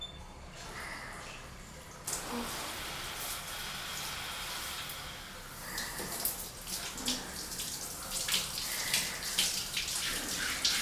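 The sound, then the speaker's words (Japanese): Warm water runs gently from a tap or shower as it rinses a person's back. The wash is soft and continuous, with small irregular spatters and splashes over a steady flow. “お湯柔らかに流してるから、こうして”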